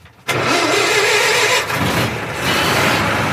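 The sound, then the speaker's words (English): A car engine in a vehicle without seat belts fires up after ignition with a sudden loud burst. It then runs at a steady, rough roar, dipping briefly before settling again. “Checking the gears. Ignition. Got to wait for the fuel to pump up. That's it. There we go.”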